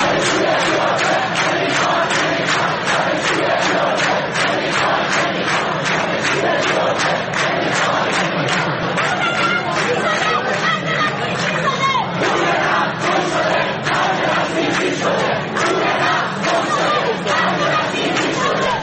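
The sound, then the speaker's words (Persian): Students rally in protest at the University of Tehran, a large crowd shouting slogans together in loud, rhythmic bursts of massed voices that carry on without pause for the whole stretch. “امروز در دانشگاه تهران هم دانشجوها برای ساعاتی دست به تجمع زدن و شعارهای مختلفی رو میدادن، از جمله اینکه پول نفت گم شده، خرج بسیجی شده.”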